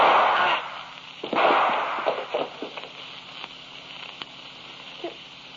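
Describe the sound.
A gunshot rings out in a radio drama scene: loud sharp bursts at the start, then a few smaller pops that fade away.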